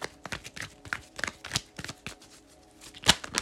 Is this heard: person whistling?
no

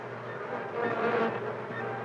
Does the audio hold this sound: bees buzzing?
yes

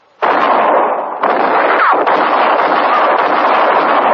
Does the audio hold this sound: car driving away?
no

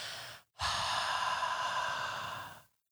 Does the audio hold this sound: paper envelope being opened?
no

